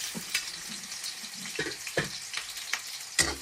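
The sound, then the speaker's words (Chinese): Scallion and ginger sizzle and crackle in hot oil in a wok as they are stir-fried. The steady frying hiss is broken by a few soft scrapes and pops from the stirring, with no voices. “热锅倒油。放入葱姜煸炒啊， 葱和姜啊”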